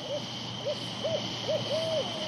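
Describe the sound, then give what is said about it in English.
An owl hoots at night at a bat-netting site, giving five soft, rounded hoots at an uneven pace, with the last one drawn out longer. The calls are faint over a steady background hiss. “Tonight, it looks like an owl has scared the bats off the net site.”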